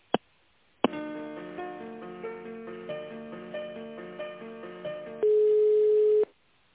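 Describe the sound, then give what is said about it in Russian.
Telephone line tones while a call is being transferred: a sharp click, then a repeating run of soft tonal pulses, then a steady flat tone that holds for about a second before cutting off, all thin and band-limited. “Я вас переведу, вам нужна Анна. Анна, угу. Да, сейчас я секунду переключу вас.”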